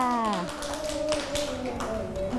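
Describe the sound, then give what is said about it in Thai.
Children clapping for a classmate in class, a quick patter of claps running steadily throughout, with young voices sustaining tones over the clapping. “เก่งมากค่ะเด็กๆปรบมือให้น้องออโต้ด้วยค่ะ”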